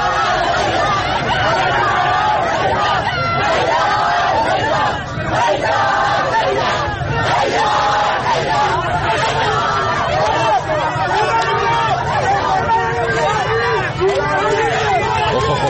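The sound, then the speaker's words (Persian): Crowd commotion at a protest gathering in a cinema at the end of a film screening: loud, continuous babble of many overlapping voices and shouting, unbroken throughout. “این بلبشویی که آخر فیلم اتفاق افتاد که صداش رو صداش رو میشنوید، فیلمش که نمیبینیم”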